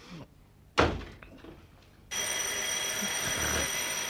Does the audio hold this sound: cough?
no

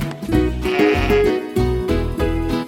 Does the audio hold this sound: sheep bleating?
yes

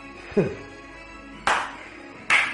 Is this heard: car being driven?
no

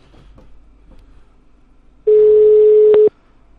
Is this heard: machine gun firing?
no

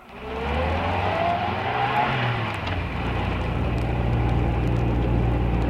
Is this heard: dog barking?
no

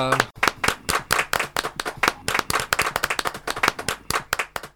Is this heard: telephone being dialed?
no

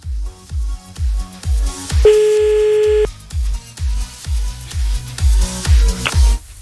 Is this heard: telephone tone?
yes

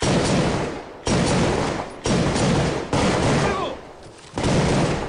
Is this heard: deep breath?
no

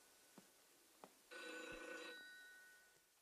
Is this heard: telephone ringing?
yes

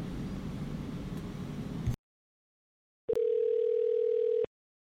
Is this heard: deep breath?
no

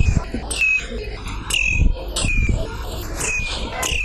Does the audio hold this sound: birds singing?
yes

